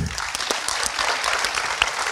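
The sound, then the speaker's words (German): An audience at a live evening show claps in a steady burst of applause, a bright, dense patter that holds evenly for about two seconds, with no voices over it. “Applaus nochmal bitte.”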